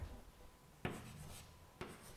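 A matrix equation is written out by hand: faint, soft scratchy strokes broken by two sharp taps.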